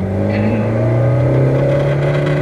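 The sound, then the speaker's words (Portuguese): Car engine revving quickly, the car fitted with a custom-made manifold and throttle body. A loud, steady, droning harmonic engine tone runs unbroken through the whole stretch with no talk over it. “Você viu como ele sobe o giro rápido, cara? É muito rápido o giro subindo.”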